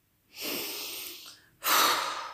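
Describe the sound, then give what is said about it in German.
A deep breath drawn in through the nose and let out through an open mouth: a steady, airy inhale followed by a louder, rougher exhale, with no talk. “du hast jetzt automatisch tief durch die Nase eingeatmet und durch den offenen Mund wieder aus.”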